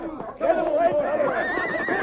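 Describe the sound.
A horse neighs in a loud, wavering whinny with strong tonal harmonics, trembling on for almost two seconds after a brief softer lead-in.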